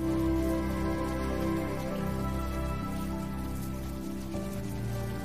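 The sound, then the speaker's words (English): Steady rain falls on a man standing out in it while he shaves, a dense continuous patter that holds at an even level throughout, with no talk. “He tilts his head to the rain, then scrubs shaving cream over his beard.”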